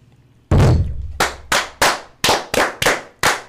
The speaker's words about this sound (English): I filled your cannon. Thank you very much. Brethren, right hand to arms. To arms. Ready. Ready. Aim. Fire, good fire. Fire all.